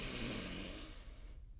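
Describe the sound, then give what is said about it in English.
A single long, deep breath drawn in during a guided breathing moment: a steady, breathy inhale heard alone, fairly loud for most of its length before tapering off near the end. “I just want you to take a deep breath in with me.”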